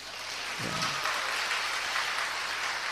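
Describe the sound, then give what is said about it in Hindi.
An audience claps hands at a religious discourse on kirtan, producing steady, dense clapping that holds at an even level throughout. “तो ये ताली तो भाषण के उपरांत में बजने वाली ताली बजाई आपने, तो कीर्तन में इसके करताल ध्वनि,”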